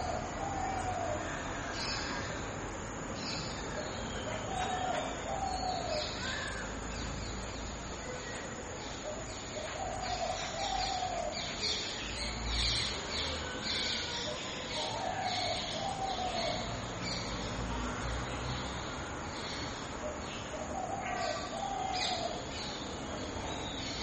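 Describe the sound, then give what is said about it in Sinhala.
Birds calling outside: a few faint chirps and short calls rise here and there over a steady, dense background hiss that lasts the whole time, with no clear rhythm to the calls. “අපිට හිතන්නේ කුරුල්ලෝ කෑ ගහන්නේ එළියේ ඉඳන් කියලා.”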